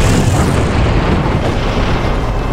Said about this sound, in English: Individual rockets shot from his left pod, which caught the pass defenders in a firestorm of hot shrapnel.